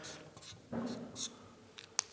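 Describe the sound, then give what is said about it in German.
Pen writing on a Post-it note: scratchy strokes in short bursts, with a denser scribble in the middle and a couple of quick ticks at the end, fairly quiet. “Komm hier zu den Post-its, schnapp dir so ein Post-it und schreib zum Beispiel den Anfangsbuchstaben”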